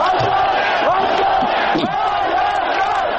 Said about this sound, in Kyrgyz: Эркин көз карандысыз Армения деп кыйкырып турушту.